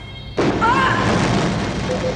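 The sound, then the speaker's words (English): A sudden loud pyrotechnic blast during a community theater space-battle scene bursts in after a brief low hum, then spreads into a long, roaring wash of noise, with a voice faintly audible over it. “Community theater doesn't usually have this much pyro.”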